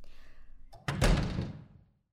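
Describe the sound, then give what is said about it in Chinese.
An office door is shut: one solid, low thud with a short rumbling decay that fades out. “把门关上，好吧。”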